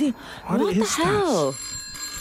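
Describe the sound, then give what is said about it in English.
An old, dusty retro antique telephone rings with thin, steady high-pitched tones while a person talks over it. The ringing continues faintly on its own once the voice stops. “nobody told me there was going to be a phone there. I don't even know what it is. A very retro phone of that as well. Yeah, it's really dusty. And it's just antique. It's weird.”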